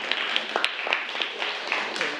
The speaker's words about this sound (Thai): โอเคอ่ะปรบมือนะครับนักเรียนปรบมือเพื่อนทั้งสองคนหน่อยนะครับ